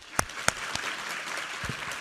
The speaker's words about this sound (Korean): 우리 하나님께 감사와 영광의 박수 올려드리겠습니다.